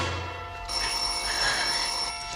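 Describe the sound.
A telephone bell rings in a 1958 radio crime play: a bright, steady electric ring that begins after a short opening moment and keeps sounding to the end, with no voices.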